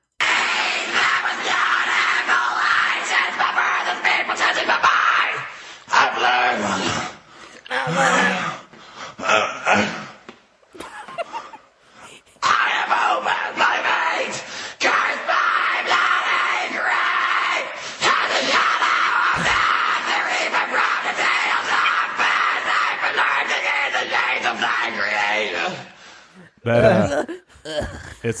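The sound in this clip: A child performs harsh, screamed extreme-metal vocals, rasping and bellowing in long, loud, sustained bursts broken by brief pauses, with a strained gasping quality between phrases.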